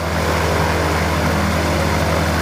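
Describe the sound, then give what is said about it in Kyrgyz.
A light aircraft's engine drones as it sprays pesticide over fields against locusts in the Batken region. The roar is loud and steady and runs through the whole clip without talk. “Баткен облусунун аймагында чегирткелердин басып кетишин токтотуу үчүн химиялык тазалоо иштери жеңил авиациянын жардамы менен жүргүзүлүүдө.”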